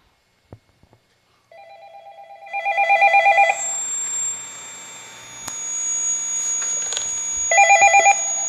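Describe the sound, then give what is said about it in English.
An incoming call ringing on a telephone: two bursts of rapid warbling electronic ring several seconds apart, with a steady hum between them and a couple of soft clicks before the first. “Hold up. We got a call.”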